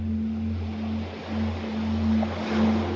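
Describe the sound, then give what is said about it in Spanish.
Ocean waves on a deserted beach: soft surf washing in gentle, slow swells, with a steady low tonal drone running beneath it throughout. “La playa está desierta. Tienes la playa entera para ti.”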